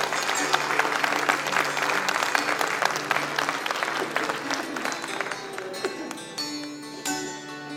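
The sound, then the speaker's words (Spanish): Sustained applause from an audience after a sung folk poetry verse, a steady dense clatter of clapping that thins slightly toward the end, with some voices and crowd noise mixed in. “Un aplauso para Homero.”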